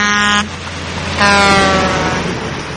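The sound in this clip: A Mack truck air horn blares in two loud blasts, a short one followed by a longer sustained one, each a rich stack of tones over a rumbling background.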